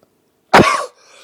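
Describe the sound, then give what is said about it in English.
A single harsh cough bursts out once, loud and abrupt, then trails off into a faint breathy tail. “I am sorry for the coughing, that was rude.”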